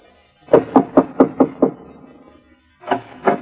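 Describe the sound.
Knocking on the door of a poor settlers' cabin: six quick, evenly spaced raps, a pause, then two more knocks.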